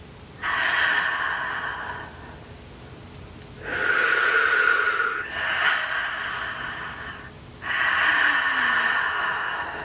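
Deep breaths in and out during a guided meditation: four long, airy breath sounds, slow and evenly spaced, with short quiet pauses between them and no talking.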